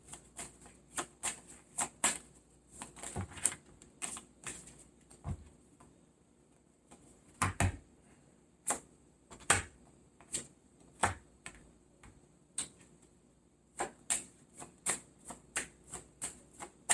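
Tarot cards shuffled and drawn from the deck during a reading: many quiet, sharp card snaps and flicks in irregular clusters, with pauses between them.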